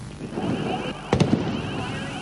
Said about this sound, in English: Police used tear gas and sound bombs to clear protesters.